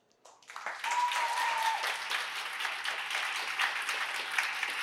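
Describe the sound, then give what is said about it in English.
At a New Blood Festival talk in 2019, an audience applauds to welcome a speaker to the stage. The clapping starts quietly, swells quickly within the first second, then holds as a full, steady applause. “So please put your hands together to give her a very, very warm welcome to the stage.”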